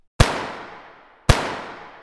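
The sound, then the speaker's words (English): Two gunshots are fired into a pumpkin in a studio to punch eye holes. Each is a sharp, loud crack followed by a long, fading tail, and the shots come about a second apart. “Is that a gun? Two eye holes, yeah. You can't fire off a gun in the studio? I did, toward the audience, too.”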